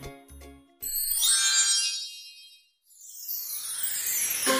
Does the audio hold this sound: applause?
no